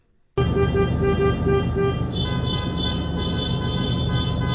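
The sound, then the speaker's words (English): Car horns honk at a car caravan protest for an unfair labor practice strike outside an insurance company. Loud, sustained tones start abruptly and run without a break over steady traffic noise. “That's the sound of people at a car caravan on Wednesday outside TruthSage, formerly known as CUNA Mutual Group”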